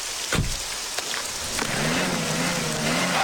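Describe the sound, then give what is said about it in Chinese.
A car's engine revs as its wheels spin, stuck in ground soaked by spring mountain snowmelt. A few sharp knocks come first, then a sustained, wavering engine drone runs to the end. “春天这到处都是高山融水，车辆进去特别容易打滑。我下去推车，你再试试。”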